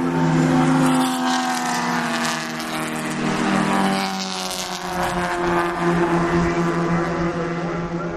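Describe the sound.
Race cars speed around a track close by. A steady, loud engine roar rises and shifts as cars pass, with overlapping whining tones that carry on through the whole stretch. No one talks.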